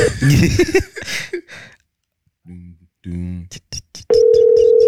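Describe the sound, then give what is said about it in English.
Telephone ringing tone of an international call: after a voice speaks briefly, two short buzzing ring bursts sound, followed by a few faint clicks and then a steady, continuous tone that holds to the end. “That sounds like you're calling Nigeria.”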